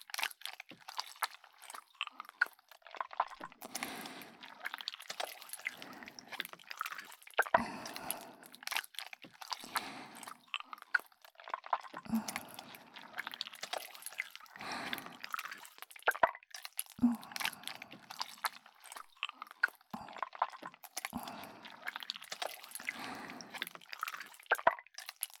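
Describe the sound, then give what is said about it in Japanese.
Slime being squished for ASMR, with many soft wet squelches, sticky crunches and small drips and pops in an uneven, continuous rhythm, quiet overall and with no talking. “いろんな種類のスライムを使ってあなたのお耳を癒してあげます。”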